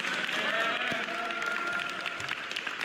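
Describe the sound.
Applause congratulates a young student on finishing the school year with a 3.8 grade average: a steady, full burst of many hands clapping at a strong, consistent level for the whole stretch.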